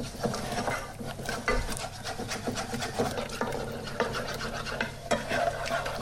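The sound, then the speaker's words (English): Steady scraping and swishing as a flour and butter mixture is stirred slowly with soya milk in a pan, continuous with irregular strokes and occasional louder scrapes. “stirring all the time, blending that flour and butter mixture with the soya milk. It's important to do this slowly”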